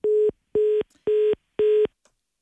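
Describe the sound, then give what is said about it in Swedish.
Telephone line tones while a call is being placed: four evenly spaced, steady beeps of the same mid pitch, each followed by silence, with a faint click near the end. “Ja, nu ringer det här igen och nu gör jag ett till försök då för att se om jag får fram något samtal här.”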